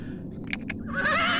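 A horse whinnies, a high, wavering neigh rising out of a low background. Two short knocks come just before the call.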